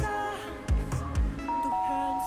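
A doorbell rings at a house front door on a Halloween evening, a sustained electronic chime with clear ringing tones over a steady background bed, broken by a couple of low thumps.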